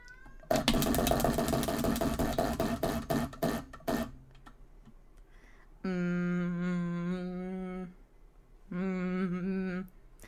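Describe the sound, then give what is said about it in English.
Rapid ticking of a question wheel spun during a St. Patrick's Day question game, many dense clicks that slow and stop after a few seconds, followed by two sustained, bright harmonic tones. “All right, let's spin for our next question.”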